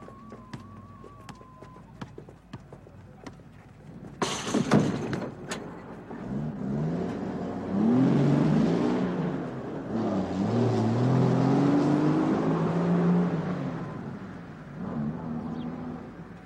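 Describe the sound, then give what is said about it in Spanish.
A bus carrying patients on an outing pulls away: a sharp clank, then a low engine rumble that builds, with its tones rising and shifting as it accelerates. Faint high tones and scattered clicks come before it. “El autobús está esperando. Todos los pacientes sin restricción, por favor, aborden el autobús.”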